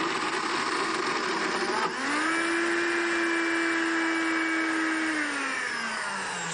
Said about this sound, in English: So she's going to blend those garbanzo beans, and so the blender will just mush them up.